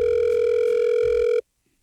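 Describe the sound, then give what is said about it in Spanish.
A telephone ringback tone from an unanswered call: a steady, loud, buzzing electronic tone that holds evenly and then cuts off abruptly, leaving silence. “¿será que Amparito no va a contestar? Cuide el tono, grave su mensaje. No contesto.”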